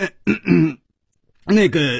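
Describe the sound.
A performed dry cough and throat clearing from a storyteller narrating a Chinese tale, voiced and tonal rather than harsh: a few short throaty bursts, a brief pause, then another drawn-out vocalized clearing.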